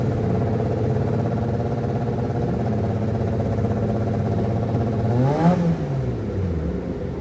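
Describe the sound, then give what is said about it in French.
A naturally aspirated Formula 1 racing engine drones steadily with a dense, harmonic-rich whine, then near the end its pitch swells sharply upward and falls away. “Premier plan sur un moteur sans turbo.”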